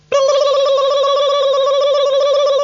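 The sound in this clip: A telephone tone sounds as a call is placed: a loud, steady buzzing tone that starts abruptly and holds unbroken to the end, alone without talk.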